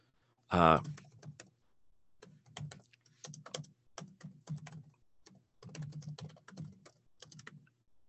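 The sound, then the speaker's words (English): Typing on a computer keyboard: irregular bursts of quick, clicking keystrokes separated by short pauses, fairly faint and steady throughout. “Since it won't let me search in this, I will just type it for you.”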